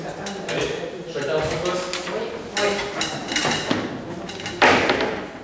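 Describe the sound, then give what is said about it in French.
A ceramic plate, an artwork by Raoul Marek, being taken down from a display: several clinks and knocks of crockery with scraping handling noise in between, the loudest knock coming near the end. “Donc on commence, et la première qu'on descend, c'est l'assiette de l'artiste, Raoul Marek, la numéro 2.”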